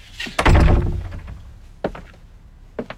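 A door is shut with one heavy, loud thunk, followed by two fainter, shorter knocks after a pause.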